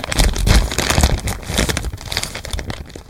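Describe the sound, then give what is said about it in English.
Crinkling plastic as a Ziploc bag is folded: a dense, continuous crackle and rustle runs steadily through the whole stretch, fairly loud and with no talk. “I'm folding a Ziploc bag. I'm folding it again. And I'm folding it one more time.”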